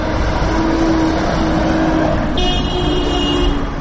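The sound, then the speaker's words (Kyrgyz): Continuous car traffic at a city street intersection of Lenin and Gaparaitiev streets in Osh, with cars stopped at a red light; a loud, steady rumble of engines and tyres runs throughout, and a car horn sounds partway through. “Мен азыр Ленин жана Гапарайтиев көчөлөрүнүн кесилишинде турам. Бул жерде азыр Гапарайтиев көчөсүнөн келаткан машиналардын токтоп турушун светофордун кызыл чырагы көрсөтүүдө.”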